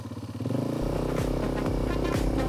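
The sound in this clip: Motorcycle engine held under steady throttle during riding practice, a loud continuous droning rumble whose tone steps up early on and then holds steady, with no voices.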